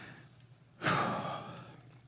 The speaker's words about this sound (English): Take a deep breath